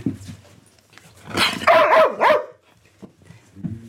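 Dog barking a greeting, a working dog on duty without muzzle or leash: short barks lead into a drawn-out, wavering, whine-like vocal, with a few quieter yips trailing off at the end.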